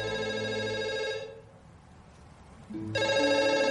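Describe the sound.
A telephone ringing with a bright, harmonic electronic ringtone in two bursts separated by a quiet pause of roughly one and a half seconds. No voices.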